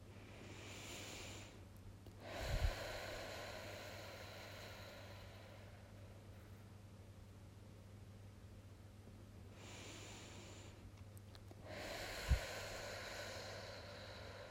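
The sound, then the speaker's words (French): Deep, slow breathing during a guided relaxation exercise for a child: long, soft, airy breaths with gaps between them, heard over a steady low hum. “On va continuer à respirer profondément pour que ton corps se détende petit à”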